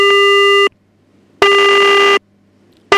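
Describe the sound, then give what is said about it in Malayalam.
Busy tone of a dropped call on a radio phone-in: steady, buzzy beeps of under a second each, separated by silences of about the same length. Two full beeps and the start of a third, with no talk. “Okay, call drop ആയി പോയിരിക്കാണ് കേട്ടോ.”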